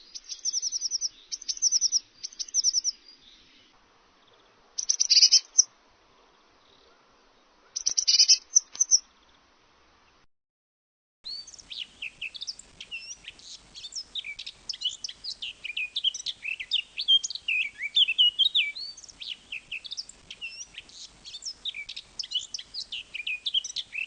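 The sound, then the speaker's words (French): Blue tit song: a few short, high, trilled bursts with pauses between, then a longer stretch of busy, continuous high chirping and twittering. No voices are heard. “La mésange bleue.”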